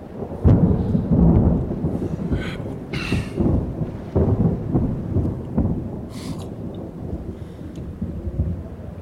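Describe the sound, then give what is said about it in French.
Deep thunder rolls on continuously for several seconds, a low rumbling roar broken by a few sharper, louder cracks. “Allons bon, le tonnerre maintenant. La grosse caisse qui entre en ligne.”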